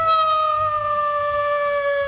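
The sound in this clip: A dog howls in one long sustained cry, a clear tone with harmonics that holds a nearly steady pitch and sags slightly toward the end, fairly loud with no voices.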